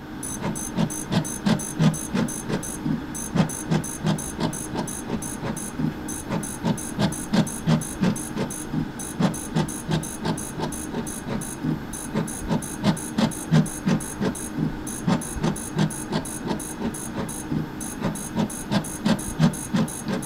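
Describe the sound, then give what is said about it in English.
A fluorescent plate reader runs in a laboratory, producing a steady mechanical hum with many evenly spaced clicking pulses in a fast, regular rhythm and a thin high whine throughout. “That was the sound of a fluorescent plate reader.”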